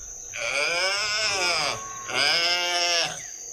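A calf bleats twice on a farm where cows are kept, each call long, loud and wavering with a rich harmonic tone, separated by a short pause.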